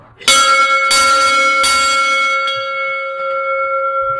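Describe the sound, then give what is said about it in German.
The original bell in a bell frame, one of the largest in the collection, is rung with a few loud strikes followed by fainter ones. Each strike leaves a sustained, ringing tone that carries on between them. “Das ist einer von den größten, was wir drin haben, mit der Originalglocke. Ich leite die jetzt einmal um.”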